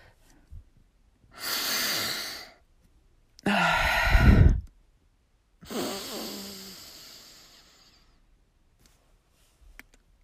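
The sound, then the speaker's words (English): Nasal sniffing of poppers from a freshly opened bottle, inhaled through both nostrils: three breathy, drawn-out sniffs and breaths separated by quiet pauses, the last one longer and trailing off slowly. “Oh, I had to double nostril that one because the first hit was a little, I was a little out of breath, didn't have enough.”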